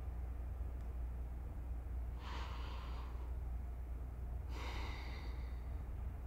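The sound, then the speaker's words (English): Deep breaths drawn in and let out during a guided relaxation: two soft, airy breath sounds a little over a second apart, faint above a steady low hiss, with no talk. “Take in a couple deep breaths and exhale.”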